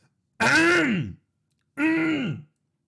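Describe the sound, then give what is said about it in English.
A person clears their throat twice, each a harsh, voiced rasp lasting under a second, with a short silent pause between them and nothing else around. “instead of hearing like the hum of an air conditioner, you get to hear me clearing my throat out.”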